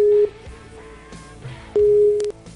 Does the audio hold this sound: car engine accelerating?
no